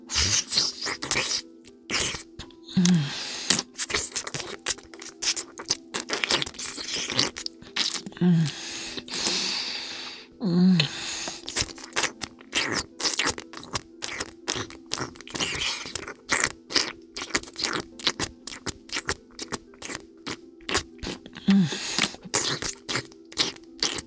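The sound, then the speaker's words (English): Quiet, wet sucking and smacking mouth sounds form a long stream of many soft irregular clicks and slurps over a low steady hum. “You don't mind if I just quietly suck for a little while, do you?”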